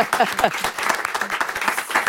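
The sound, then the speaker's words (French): Applause from a small group seated around a table in a radio studio, honouring a prize-winning novelist: quick, distinct claps in an uneven rhythm, with a voice heard briefly at the start. “Et encore bravo, on peut l'applaudir un petit instant.”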